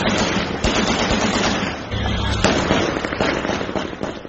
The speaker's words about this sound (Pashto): تیره شپه د کابل په ګڼو سیمو کې د خوښۍ ډزې شوي او اورشیندونکي پټاقې هم هوا ته پورته شوي.